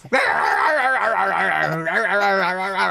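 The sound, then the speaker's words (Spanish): A human voice imitates a dog whimpering and growling, a continuous wavering whine that bends up and down in pitch for almost three seconds. “¿te imaginas el perro haciéndole así?”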